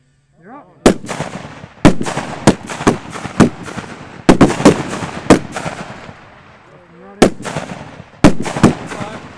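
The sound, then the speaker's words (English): Gunshots at a shooting competition: many loud, sharp cracks with short ringing tails, fired in an irregular series with brief pauses between them, and a faint voice in the gaps. “We're up. Instant. Watch and shoot. Watch and shoot.”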